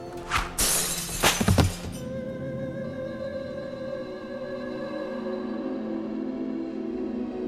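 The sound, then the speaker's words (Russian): A heavy glass bottle shatters after being thrown at someone's head. Sharp, loud crashing bursts fill the first two seconds, then a sustained low tonal hum continues alone. “увидел тяжелую стеклянную бутылку, летящую прямо мне в голову”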